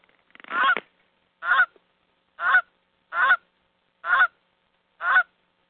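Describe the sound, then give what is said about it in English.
Six loud honks from a stuffed toy Canada goose, evenly spaced about a second apart. Each call is a short, nasal, buzzy blast, heard alone with no talking. “Goldie is a Canadian goose and named because of the geese in Willy Wonka”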